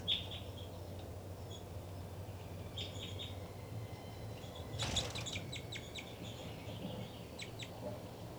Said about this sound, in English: Now she's back on the nest feeding the babies.